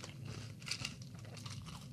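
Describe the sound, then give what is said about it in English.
Crunchy bite into a large cereal cluster soaked in milk, with faint, dense crackling and chewing crunches spread across the whole moment, no voices. “So okay, let me get a bite with. I got a big old cluster here with the milk.”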